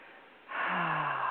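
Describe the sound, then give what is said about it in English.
A deep breath taken during a relaxation breathing exercise, in through the nose and out through the mouth. A soft, airy rush swells after about half a second and holds steady to the end, alone with no talk. “A couple more deep breaths in through the nose and out through the mouth.”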